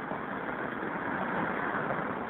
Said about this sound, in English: It's my favorite kind of payphone. Like out in traffic, practically in traffic, right on the curb. Northern Boulevard and 41st Street.